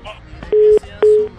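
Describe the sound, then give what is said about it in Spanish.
Two steady, identical beeps of a telephone line tone sound as a caller's call drops on a morning radio show line, with faint talk just before them. “Ah, se le fue el la llamada, hombre.”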